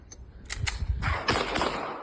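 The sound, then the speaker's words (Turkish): Several sharp, loud cracks of pistol shots fired one after another into the air on a street at night, recorded on a mobile phone, with uneven gaps between the bursts. “tabancasını çıkarıp havaya peş peşe ateş açtı.”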